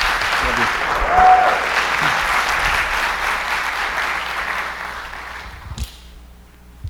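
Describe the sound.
Audience applause welcoming a speaker to the stage at a church service, a full, steady burst of clapping that gradually thins and fades near the end.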